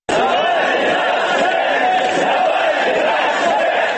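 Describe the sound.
A crowd of supporters cheers and shouts to welcome Alexei Navalny at a railway station in Moscow, a loud, steady roar of many voices that holds without a break.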